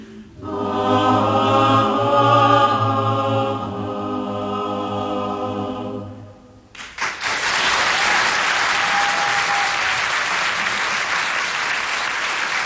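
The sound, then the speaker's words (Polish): Audience applause at a live performance. Music with sustained tones fades out, then loud, broad clapping breaks out and continues steadily to the end, without voices. “Bardzo Państwu serdecznie dziękujemy za oklaski.”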